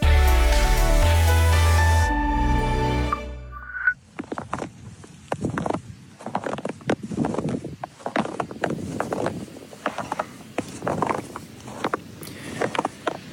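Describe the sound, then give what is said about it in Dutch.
Footsteps crunch through a thin layer of fresh snow on a walk from a station, following a short stretch of music. The crunches are irregular and fairly loud, with many steps in an uneven walking rhythm. “Ik kon het niet laten toen ik vrijdag van station Mediapark naar de Vroege Vogels redactie liep en er een laagje verse sneeuw lag. Moest ik de knerpende sneeuw opnemen?”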